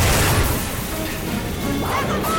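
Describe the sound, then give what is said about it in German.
An explosion blasts a trapdoor open, producing a loud, dense crashing roar that stays heavy from start to finish without a break. “als das Falltor gesprengt wurde”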